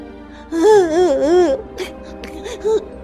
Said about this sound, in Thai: แต่กระต่ายตัวเดียวเท่านั้น ที่ยังคงนั่งร้องไห้ เพราะว่ามันสอบตก